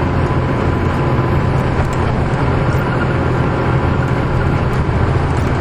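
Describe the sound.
A car driving along a road in Galilee: a loud, constant roar of road and engine noise that holds steady and unbroken throughout.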